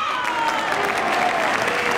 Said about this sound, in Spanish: No sé para qué aplaudir, pero bueno.